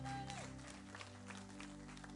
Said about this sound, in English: Give the Lord a clap offering.